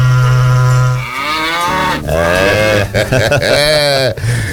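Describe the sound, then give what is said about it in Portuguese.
A herd of cattle moos at dairy milking time, with several long, overlapping calls of low, drawn-out bellows that rise and fall in pitch. The lowings follow one another closely and stay fairly loud throughout. “Chama a boiada, gente.”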